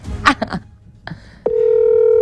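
Telephone dialing as a call is placed: a few short tone bursts come first, then a steady, even tone holds unbroken to the end with no talk over it.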